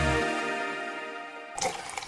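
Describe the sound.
Water runs from a tap with a broad, splashing hiss that starts abruptly just after a held musical tone fades out, ending in a few uneven gushes.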